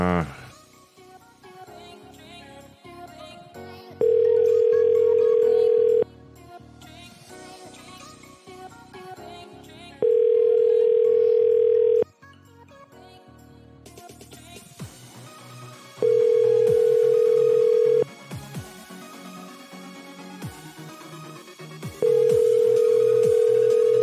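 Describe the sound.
A telephone call ringing out before going to voicemail: four identical low, steady ring tones, each about two seconds long and spaced evenly, over a busy background.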